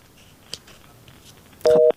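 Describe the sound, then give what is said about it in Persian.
A telephone tone after a caller's line cut off: faint clicks and low noise, then one loud, short steady beep near the end. “فکر کنم تماسشان قطع شد.”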